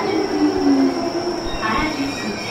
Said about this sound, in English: Our train is here. Again, it's very, very quiet.